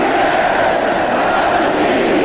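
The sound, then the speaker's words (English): A football stadium crowd roars for the Huskies in a dense, steady wash of cheering that stays loud throughout, with no clear breaks. “Coming out for the Dogs. The crowd starting to get into it.”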